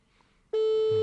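Telephone call to a mother ringing unanswered: after a quiet opening, a single steady electronic tone switches on partway through and holds loud and unbroken to the end.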